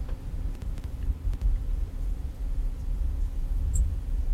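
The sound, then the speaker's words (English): Wind on Mars, recorded by a rover microphone with the rover's own noise reduced, comes through as a steady low, hollow rumble that swells and dips slightly in gusts. “further reduced the noise of the rover so you can just hear what the wind would sound like on Mars”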